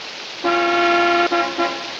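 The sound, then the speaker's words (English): A car horn sounds outside a house at night in the rain. One long steady honk is followed by two short toots, each loud over a low background hiss. “Marion returns to her car and presses the horn”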